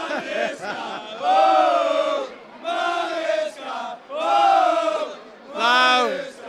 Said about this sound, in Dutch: Nou, je hoort het. Je kan er eigenlijk niet doorheen komen. Want het feest is hier waanzinnig.